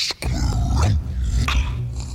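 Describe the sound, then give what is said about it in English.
Crunching and chewing as a gargoyle eats a teacup and saucer, a dense, continuous grinding crunch over a low, growl-like rumble. “I was impressed by his extended pinky, but now he's eating his cup and saucer.”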